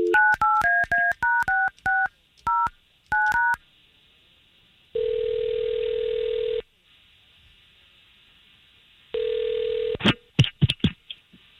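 A telephone being dialed to call someone: a quick series of touch-tone beeps, then two long, steady ringing tones with a pause between them, and a few sharp clicks at the end.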